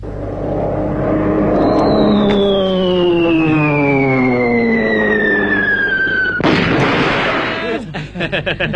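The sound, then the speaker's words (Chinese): A man vocally imitates Japanese warplanes dropping bombs: a long, steadily falling whistle descends for several seconds, then ends in a loud explosive burst, followed by a few short pops. “倒叫是日本鬼子飞机啊，是着实厉害，这炸弹是成千上万的往下扔。”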